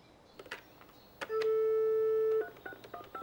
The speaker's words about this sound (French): et j'ai appelé mon père.